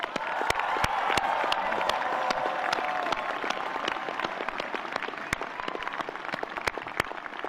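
Applause at a Stanford commencement for faculty and staff, a dense, steady wash of many hands that slowly thins until scattered single claps stand out near the end.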